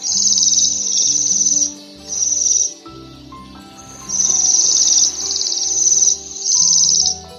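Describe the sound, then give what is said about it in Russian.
Bohemian waxwing calls, high, thin, buzzy trills repeated in many short bursts with brief gaps, loud and clear above a faint low steady tone. “А сейчас вы слышите голос свиристеля обыкновенного.”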